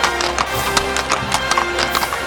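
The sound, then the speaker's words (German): A horse trots with steady clip-clopping hooves at a tournament, a fast, even run of many sharp hoof strikes at moderate loudness, with no voices. “Er verbeugte sich und trabte dann schnell wieder in den abgetrennten Bereich zu Justus, Bob und David zurück.”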